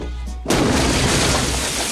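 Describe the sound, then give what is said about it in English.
A dynamite explosion erupts out of a lake beside a fishing boat. One sudden, loud, broad blast cuts in after a quieter half-second and continues as a sustained roar to the end. “A dynamite explosion erupts out of the lake by the fishing boat.”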